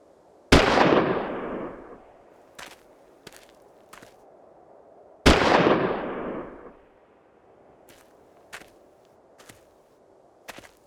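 Two loud rifle volleys from a firing squad at an execution, each a sharp blast with a long, decaying rumble, a few seconds apart. Faint scattered clicks and taps follow each volley.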